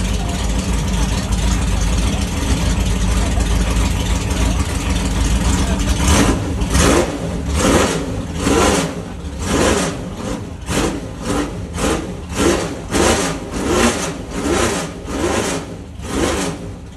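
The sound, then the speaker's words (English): A racing car engine at the front of the pack rumbles low and steady for several seconds, then gets a blast on the throttle: many sharp, loud revving bursts in quick, rhythmic succession. “he sort of gives me the little wink and just sort of gives it this sort of fantastic blast on the throttle. And I'll probably edit that in now so you can hear it.”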